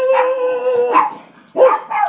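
Dog barking and howling: a long, drawn-out tonal yowl, then a few shorter, sharper barks, loud and with no talk over them.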